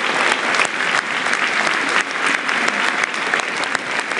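Crowd applause for charity volunteers at a Celtic football match against St Mirren, a dense, steady roar of clapping from many hands that holds at an even level throughout.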